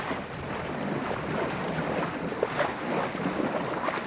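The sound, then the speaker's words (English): Wind and water rush steadily around a 12-metre sailing yacht with a tall mast and mainsail as it sets out to sea. The noise is loud, broad and continuous, with no voices. “We've set sail. Our adventure has begun. Let me describe the yacht to you.”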